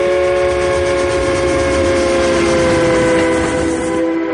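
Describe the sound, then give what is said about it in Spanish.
A Trans-Siberian Railway train 320 kilometres from Irkutsk sounds a loud, sustained horn or whistle, a steady tone held throughout over the low rumble of the train. “Ferrocarril transiberiano a 320 kilómetros de Irkutsk.”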